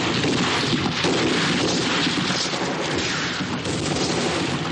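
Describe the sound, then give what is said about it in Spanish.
Gunfire from soldiers shooting down from above in a 1961 World War II war film: a dense, continuous roar of overlapping shots and blasts that stays loud and unbroken throughout. “Los soldados disparan desde arriba.”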